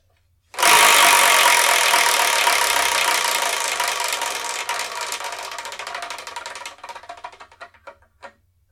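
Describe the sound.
A wheel spun to pick the next manga review, giving a loud, dense ratcheting clatter that gradually thins into slower, separate clicks before coming to a stop.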